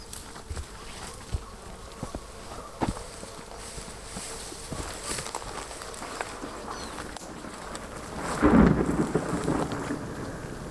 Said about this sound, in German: Ein ferner Donnerschlag reißt das Mädchen aus ihren Gedanken.